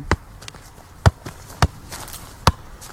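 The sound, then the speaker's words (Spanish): A football is juggled keepy-uppy style, giving dull, hollow thumps at uneven intervals, four firm touches with a few fainter taps in between. “Hace toques de balón.”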